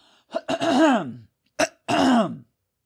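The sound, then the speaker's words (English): Throat clearing by someone with phlegm after eating: two separate raspy, voiced bursts, each with a short catch at its onset, split by a brief pause, then silence. “I have some phlegm in my throat.”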